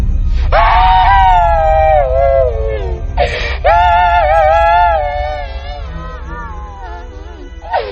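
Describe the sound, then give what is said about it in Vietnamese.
A woman wails and cries bitterly in a few long, high, wavering sobbing cries that trail off and weaken toward the end. “Yến gào khóc thảm thiết vì đã thấy anh Duy đã nói đúng với điều đó.”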